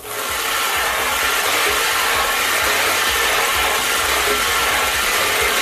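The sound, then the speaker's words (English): Lottery balls tumble and clatter in a spinning drum, a continuous, even rattling and rubbing that holds steady at a fairly loud level for the whole stretch. “I'm going to spin those balls.”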